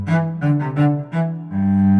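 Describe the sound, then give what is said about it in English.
A cello plays a short melodic phrase of several warm, resonant notes, then settles into a longer sustained low tone that holds steady to the end. “A cello is a string instrument, like a violin, and it sounds like this.”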